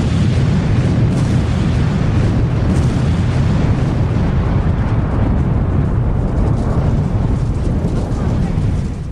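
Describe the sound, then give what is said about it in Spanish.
A bomb explosion gives a long, loud, continuous roar of low rumbling noise that barely fades across the whole stretch. “Ahora que oigo esa bomba”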